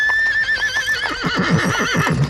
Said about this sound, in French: Un nuage de poussière annonce que les cavaliers approchent, puis un tonnerre de cavalcade envahit le théâtre.